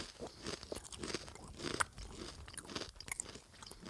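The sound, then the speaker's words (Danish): Crunching and chewing of beer-flavoured potato chips, a steady run of irregular crisp crunches and wet chewing sounds, fairly faint and with no talk. “Sidder og smasker chips og, og drikker øl.”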